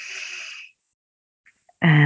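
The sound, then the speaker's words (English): A long, breathy deep inhale taken during a guided gratitude meditation lasts under a second. Silence follows, then a voice begins to speak. “One more deep breath in”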